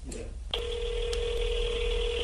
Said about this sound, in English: HW decided to try to call him live on the air to say thank you. Can you guys hear that?